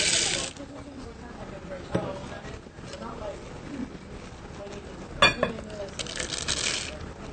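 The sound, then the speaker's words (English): Chocolate chips are added to mixed cookie dough ingredients in a bowl, giving faint clicks and patters, with a sharper rattle toward the end, under a voice talking. “So now we're going to make a well in the dry ingredients and add in our wet ingredients. And at this point, we can add in the chocolate chips.”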